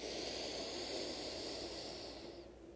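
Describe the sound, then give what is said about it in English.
Slow breathing during a guided breathing exercise, heard as one long, soft, airy breath that holds steady and then fades away at the end. “Again, inhale, strength.”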